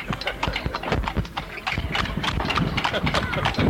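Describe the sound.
Hooves clip-clop steadily as a horse pulls a cart through Tambacounda, Senegal, in the rainy season. The brisk, even rhythm of hoofbeats runs over busy background noise, with voices mixed in.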